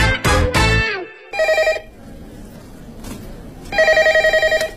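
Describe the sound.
Telephone bell ringing in a company office, heard as two separate bursts of rapid, trilling rings after a brief loud opening sound.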